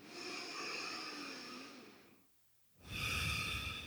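Deep breathing in and out during a seated meditation: a long, airy breath, then a short silence, then a second breath beginning. The sound is soft and even, with no voices.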